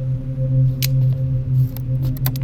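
Cutting a captive's bonds free: a few sharp, brief snips and crackles sound over a steady low hum, with no voices.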